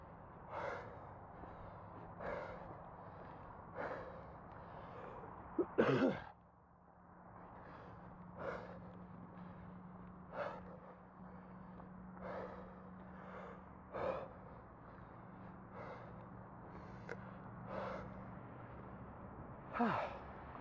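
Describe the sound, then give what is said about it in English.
Slow, faint breathing repeats many times at an even pace over a low, steady background hum, with one sharper, louder intake early on. “Breathing, also ambience, in case you're wondering.”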